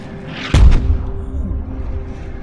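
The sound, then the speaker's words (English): A mortar round explodes in a war zone as one heavy, sudden blast, followed by a short rumbling tail that fades into steady background noise. “That's a good miss. A mortar.”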